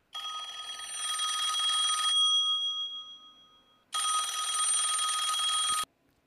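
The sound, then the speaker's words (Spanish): A telephone rings with an incoming call: two long electronic ringing bursts, each about two seconds, separated by a short silence, bright and steady in tone with no voices over them. “Disculpe, vamos a contestar por línea una llamada.”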